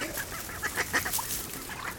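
Several short nasal duck quacks come in quick succession, fairly faint against a rough, noisy background.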